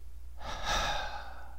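A quick, short breath: one soft, airy intake of breath lasting about a second, heard alone with no talk over it.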